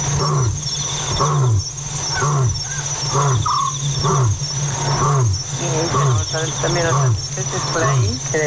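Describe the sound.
An African scops owl calls at night with short, repeated notes, set against a steady high chirring of insects and a low, regular pulsing sound that repeats throughout.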